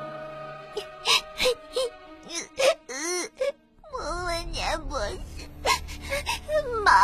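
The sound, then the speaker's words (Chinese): A child cries sadly, with a run of short, wavering sobs and whimpers that rise and fall in pitch, broken by brief breaths and growing more drawn-out toward the end. “可是他一想到莫问年博士、麻花大爷他们都被僵尸抓走了，又伤心的哭了起来。”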